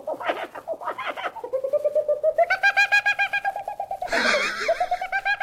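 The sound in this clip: A person imitates bird calls with the voice, producing pulsed whistled chirps, then a long, steady, warbling whistle that grows brighter, and finally a lower, fluttering call.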